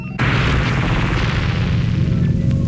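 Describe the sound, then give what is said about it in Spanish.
Gunshots ring out as a sudden loud blast that gives way to a sustained, dense roar of noise lasting to the end. “Ya ven, por distraerme, ni cuenta me di a qué horas nos dispararon.”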